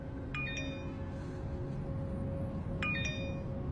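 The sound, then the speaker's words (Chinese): A mobile phone message notification tone on a rooftop terrace. Short, bright, high chiming notes sound twice, over a steady low background hum. “突然手机响了。”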